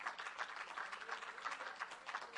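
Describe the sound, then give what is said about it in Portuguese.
Applause from a church audience during a sermon: a soft, steady wash of many hands clapping at once, fairly faint throughout with no voices over it. “Vamos aplaudir ao Senhor, gente, por favor. Vamos aplaudir ao Senhor.”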